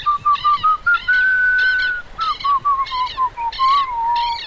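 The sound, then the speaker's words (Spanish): A little monkey character in a children's story whistles a clear, sustained tune that wavers gently in pitch, heard alongside a rhythmic run of short pulsing sounds. “Ingresa el changuito silbando, se acerca al tero y lo acaricia.”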